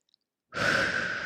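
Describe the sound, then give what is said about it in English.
A deep breath is taken together at the start of a conversation about sustainability and friendship. A soft, airy, sigh-like rush of breath begins after half a second of silence and holds steady to the end, with no talk. “Let's all take a deep breath”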